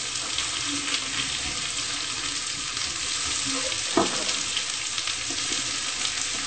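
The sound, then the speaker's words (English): Onion sautés lightly in a pan with a steady, even sizzle and hiss, broken by a single brief knock partway through; no one speaks. “So just lightly saute the onion until it's clear.”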